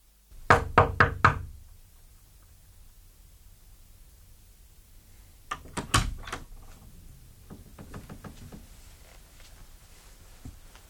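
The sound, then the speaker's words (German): Knocking on a door: a quick set of four sharp raps, a pause, then another cluster of knocks trailing into softer, scattered taps over a steady low hiss. “Ich habe geklopft, Sie haben offenbar nichts gehört.”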